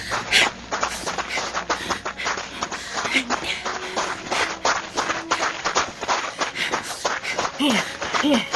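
Hurried footsteps of people running through a gap in a fence, many quick, irregular scuffing steps at a lively pace, with a couple of brief vocal noises near the end.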